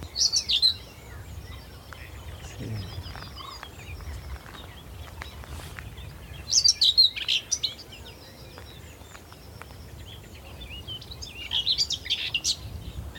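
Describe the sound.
Song of a whitethroat warbler in a bush: three brief, scratchy, high bursts of chirping, spaced several seconds apart, over quiet background rumble.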